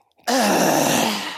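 An exasperated groan sound effect: one loud, drawn-out vocal groan with a wavering pitch, starting abruptly and slowly fading over about a second.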